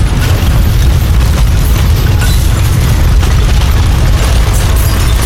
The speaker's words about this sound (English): On Soder Street, Maria Humpa feels the ground shake as her entire home is rattled by the blast.